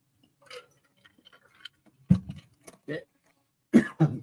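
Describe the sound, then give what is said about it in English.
Four harsh coughs burst out in quick succession after a near-silent stretch, with faint small clicks and breathy sounds before them. “Hey, man, coughing happens. You know, especially when you're talking.”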